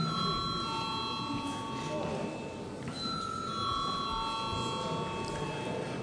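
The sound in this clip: Chairman's bell ringing in the Latvian parliament before a vote, a sustained metallic ringing tone with bright overtones, continuing steadily over a low murmur in the chamber.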